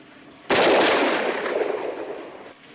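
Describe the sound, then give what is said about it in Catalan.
A single loud handgun shot fired in a shooting test, with a sharp, sudden crack and a long, rumbling decay that fades over about two seconds. “Empuñe el arma. Ande, dispare.”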